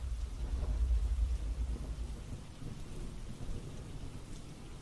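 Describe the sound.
Heavy rain pours in a steady, dense hiss, with a deep rumble of thunder rolling under it near the start before it fades back into the downpour.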